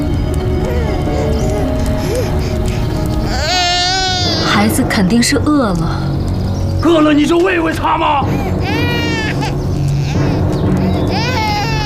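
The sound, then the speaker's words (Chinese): A hungry baby crying in several loud, wavering wails that break out between stretches of adult conversation, with people talking throughout. “哭哭哭！一天到晚就知道哭，烦死了！ 孩子肯定是饿了。”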